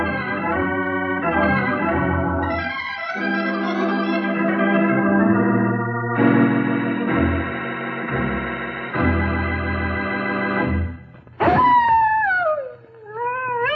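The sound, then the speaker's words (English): A coyote howl rises suddenly near the end as a high, wavering cry that falls in pitch. Before it comes a long stretch of sustained, chord-like musical tones. “Well, that's the howl of a coyote, a sound you hear lots out west.”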